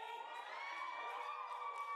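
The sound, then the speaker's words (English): Crowd cheering and whooping at a video game presentation announcing a PlayStation partnership: a steady, sustained roar of many voices with high shouts riding on top, unbroken throughout. “Crowd is riled up.”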